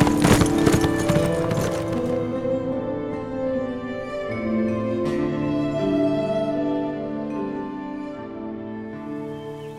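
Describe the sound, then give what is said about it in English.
A badly frightened horse galloping off in a panicked run, with loud continuous hoofbeats and sustained tonal sounds, with no talk. “Suddenly, something struck him on the head. The last thing he remembered was grabbing hold of the saddle horn as the badly frightened animal took off in a panicked run.”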